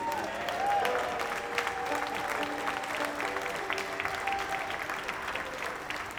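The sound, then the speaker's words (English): Audience applause at a live band concert for the band's sound engineer: dense, steady clapping that holds at an even level throughout. “A big hand for our sound engineer, Mr. Bernie Valuti.”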